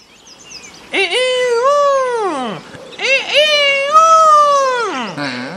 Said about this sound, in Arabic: ولما وصل العصفور والديك بيت الهدهد صاح الديك بأعلى صوته